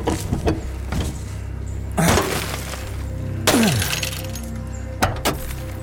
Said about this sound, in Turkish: Dur bir dakika, dur şu camı kıralım.